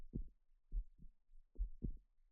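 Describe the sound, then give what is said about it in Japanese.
Quiet heartbeat, a few soft, low, muffled thumps in lub-dub pairs at a steady rhythm, alone against silence. “ここに確かに鼓動を打ってあなたのそばに生きてるよって。”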